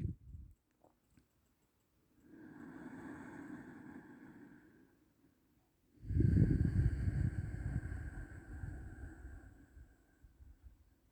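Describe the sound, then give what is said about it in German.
Ujjayi breathing during a guided breathing practice: two long, throaty, hissing breaths, the first softer and the second louder and longer, with no talking. “lausche die ganze Zeit auf den Klang deiner Atmung, diesen Klang von Ojjayi.”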